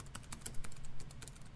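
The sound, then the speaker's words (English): Faint, rapid keystrokes on a computer keyboard as a URL is typed in, a busy stream of light clicks with no talking. “He types in the URL.”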